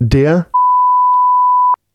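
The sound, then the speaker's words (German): Censor beep: a single steady, mid-pitched tone lasting a little over a second, following a brief bit of speech. “Und deswegen gibt's jetzt einen Piepvogel der Woche, und zwar der Piep.”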